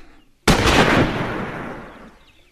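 A single rifle gunshot in a dramatized scene: one sudden, loud blast followed by a long, slowly fading rumbling tail, with no voices.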